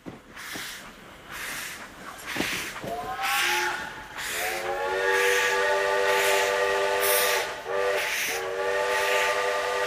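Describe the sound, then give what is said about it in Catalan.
Steam train with a loud, sustained multi-tone whistle chord that starts after a few short bursts and holds steadily with brief breaks, over a low rumbling background. “Això és un tren de vapor, crec, segons documentació.”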